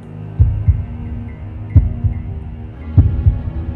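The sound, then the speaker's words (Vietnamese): A pounding heartbeat sound effect: three loud, low double thuds in a slow, steady rhythm over a faint low hum, with no voices. “làm cho ông bất giác như bị hóa đá, tim đập liên hồi.”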